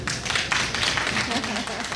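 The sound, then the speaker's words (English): A family claps their hands together in a quick, uneven run of many sharp claps, with voices talking underneath. “if you're Mary Haven's family and you know it and you're proud, clap your hands”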